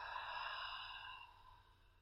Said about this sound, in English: taking a nice gentle breath in. And then exhale out.